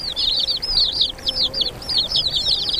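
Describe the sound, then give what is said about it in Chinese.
High, chirping bird calls from a bird family raising nestlings, with many quick, bright chirps in a steady, busy stream and no talk. “乌冬一家也在忙着抚养雏鸟。”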